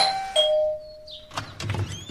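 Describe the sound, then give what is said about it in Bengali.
Doorbell ringing once as a faint two-note electronic chime, the second note slightly lower and fading out over about a second before quiet shuffling sounds. “এমন সময় calling bell.”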